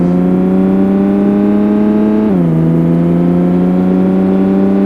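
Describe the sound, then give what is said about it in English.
Car engine in a racing video game while driving on snow: a loud, steady, buzzing drone that drops abruptly in pitch about halfway through, then holds level again. “And it sounds like I'm driving on snow.”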